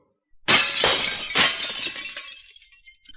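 Glassy shattering as magic light shields, frozen into glittering ice by blue flame, are cut apart by a giant sword: a few loud crashing bursts with bright, brittle debris that trails off into fainter tinkling, with no voices.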